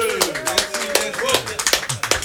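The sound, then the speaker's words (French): An audience applauds a performer arriving at a live singing session, with scattered, uneven claps building into a patter under a man's continuing talk. “On en profite pour applaudir l'arrivée de Jeannick Boyer”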